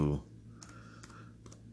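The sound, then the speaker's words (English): A few short clusters of keystrokes on a computer keyboard as a stock ticker is typed into a finance website, soft and crisp, following a brief louder sound at the start. “Yahoo Finance, if you type in a stock, let me just type in any stock, RGTI.”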